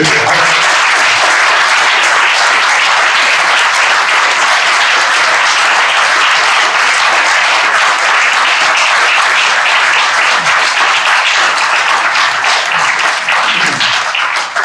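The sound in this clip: An audience applauds in a dense, steady wash of clapping that stays loud and even for about fifteen seconds, with no talk over it.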